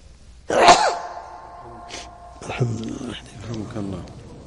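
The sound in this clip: A single sharp, loud sneeze bursts out, and then a man speaks calmly.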